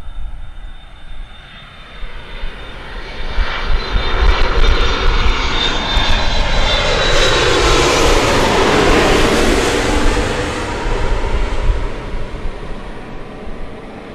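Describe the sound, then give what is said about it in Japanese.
A white Japan Airlines jet airliner flying past from right to left: a broad engine roar that swells from a steady rumble to a loud peak mid-clip, then slowly fades. No one speaks. “目の前を白い、えー、ジャパンエアラインズのですね機体が”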